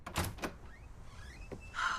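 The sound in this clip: A door opens in a lavish home with white walls, giving a few dull thuds and clunks followed by a brief rushing scrape near the end.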